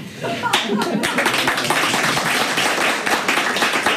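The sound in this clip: An audience breaks into applause, a dense burst of many hands clapping that builds after a brief lead-in and continues steadily while voices talk over it.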